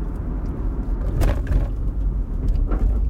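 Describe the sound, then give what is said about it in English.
A car drives along a city street in Manhattan on a Saturday night, producing a continuous low engine and road rumble with a few faint swishes passing over it. No talking. “I'm driving along Houston Street, heading for the FDR Drive.”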